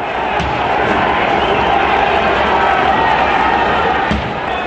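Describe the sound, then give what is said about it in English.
Thousands of protesters cheer in the center of Kiev as riot police fail to remove them, a dense, loud, unbroken roar of crowd noise that stays level throughout. “Here on Wednesday, thousands cheered as riot police failed to remove them from the center of Kiev.”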